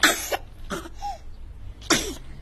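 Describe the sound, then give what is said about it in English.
A voice imitates a baby's sneeze after tickling with a feather: a few short, breathy, hissing bursts with quiet gaps between them. The last burst is sharp and loud, and there is no other talk. “sneezed Baby.”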